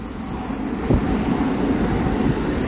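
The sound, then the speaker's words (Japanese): A Keisei Electric Railway train passes by as a steady, low, broad rumble mixed with wind-like noise, holding at a fairly even loudness throughout. “あ、今ちょうど京成 電鉄が、電車が”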